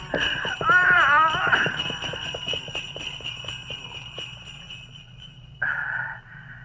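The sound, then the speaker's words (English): A horse flees while pulling a sledge, its hooves clip-clopping in a steady, even rhythm, with a wavering whinny near the start. “Ah. It does not move. The horse has fled with the sledge.”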